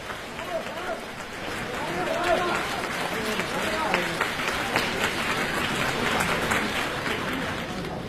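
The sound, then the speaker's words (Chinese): Audience applause at a live crosstalk comedy performance, a dense, sustained wash of clapping that holds steady throughout. “谢谢大家掌声。 对， 掌声对演员是鼓励”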